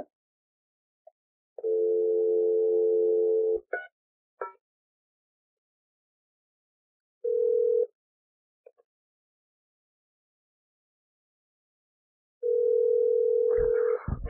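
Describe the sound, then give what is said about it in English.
A telephone tone sounds before a call is dialed, coming in three steady, mid-pitched hums: a long one, a short one, then another long one. A few brief clicks fall in the quiet gaps between them. “You want to dial it now?”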